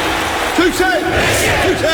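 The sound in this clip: A large crowd shouts loudly in a Turkcell advert, a sustained massed roar with a few ringing, rising-and-falling yells cutting through it.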